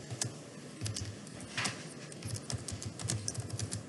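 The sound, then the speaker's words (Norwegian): Buttons pressed on a keyboard, many quick irregular clicks and taps at a faint level, with small clusters of sharper keystrokes and no voices. “Hvis jeg bare kan få trykket noen knapper her.”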